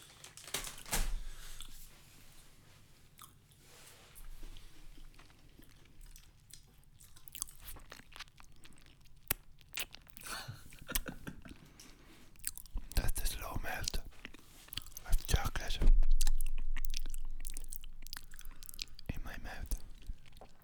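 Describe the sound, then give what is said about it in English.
Someone eats chocolate digestive biscuits with irregular crisp bites and crunchy chewing, some bursts louder than others, amid soft murmured mouth sounds and quiet voices. “I'm not eating that dark chocolate. I'm eating the bickies. Hmm. Chocolate digestives.”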